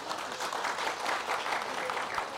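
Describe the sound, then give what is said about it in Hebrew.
Audience applause breaks out for a woman being praised, a fairly soft, sustained patter of many hands clapping at an even level from start to finish. “כפיים לאישה”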